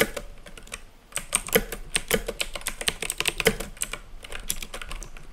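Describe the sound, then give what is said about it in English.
Rapid typing on a computer keyboard: dense, irregular clicking keystrokes with a brief pause early on, then a steady run of taps to the end, with no voices. “I'm typing without a screen reader, so I hope my keyboard doesn't glitch.”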